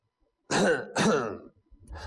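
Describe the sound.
A man's voice imitating an old man coughing: two harsh, throaty coughs in quick succession, each a loud burst, followed by a fainter rasp at the end.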